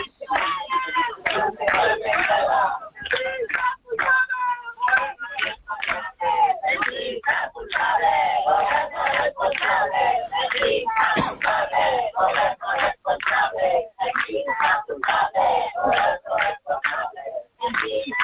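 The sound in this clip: Protest crowd chanting slogans aimed at the mayor, Inés Rey: rhythmic bursts of shouted voices in repeated cadences, loud and regular, with brief gaps between phrases.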